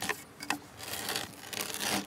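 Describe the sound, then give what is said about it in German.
Rough rasping and grinding of a drill boring a hole into a timber sill for wooden pegs, with a few uneven scraping bursts and no talk. “Er bohrt das erste von zwei Löchern für die Nägel, die später Schwelle und Strebe zusammenhalten sollen.”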